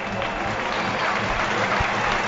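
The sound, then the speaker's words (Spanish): A stadium crowd applauds a football player as he is substituted off during a match, with a dense, continuous rumble of clapping and crowd noise holding a steady level. “Aplausos para Scriche. Aplausos para Scriche, que dio la asistencia del único gol que manda en el marcador, 1-0.”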